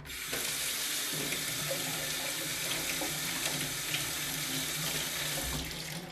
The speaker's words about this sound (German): Also, wir haben doch Zitronen. Und jetzt waschen wir die einfach nochmal ab